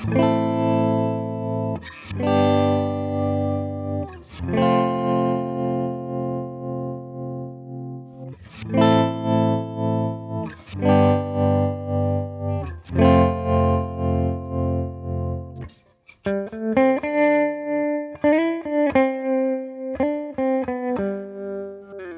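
An electric guitar plays through a tremolo effect, its volume pulsing rhythmically on distorted sustained chords struck several times. A run of single notes follows near the end.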